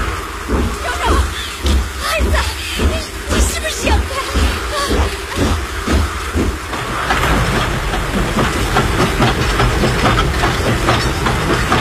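A train slowly rolling onto flooded railway tracks and embankment, with a steady, loud rhythmic clacking amid a dense wash of rain-like noise that thickens toward the end.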